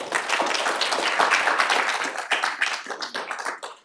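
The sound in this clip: An audience applauds to welcome a speaker to the stage. The clapping is dense and continuous at first, then thins into scattered individual claps toward the end.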